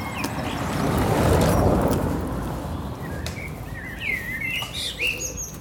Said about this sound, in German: there's so many birds. Ich höre überall Vögel.